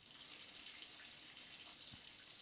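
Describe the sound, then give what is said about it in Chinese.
Water from a shower runs in a bathroom as a steady, faint hiss that holds level without a break for the whole stretch. “你问什么声音啊？是我同事在浴室洗澡啦。”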